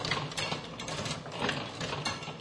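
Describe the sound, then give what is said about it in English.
A 140-year-old printing press runs with its round plate inked, giving off a dense, steady mechanical clatter of gears and ratcheting parts that continues loudly without pause. “The round plate on the 140-year-old printer is inked, and he's ready to go.”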